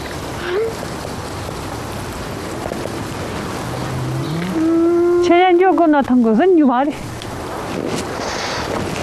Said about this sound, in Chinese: 一头母牛举止异常，拼命想冲出牛圈。